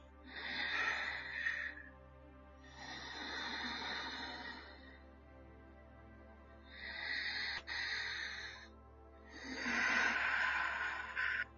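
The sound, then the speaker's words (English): Two slow, deep breaths taken during a guided intimate exercise: four long, soft, breathy rushes of air, each inhale and exhale separated by a short pause, with no talk. “Now I want you to take some two deep breaths. Okay, gonna do it together.”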